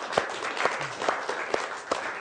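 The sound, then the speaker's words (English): Applause from an audience at a live event: a soft, continuous bed of clapping with five sharp, evenly spaced claps standing out above it. “can we just give a round of applause for that, please?”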